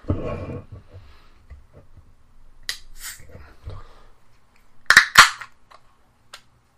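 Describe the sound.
A Pabst Blue Ribbon beer can cracks open with a couple of sharp metallic pops close together, standing out against an otherwise quiet stretch with faint rustling earlier.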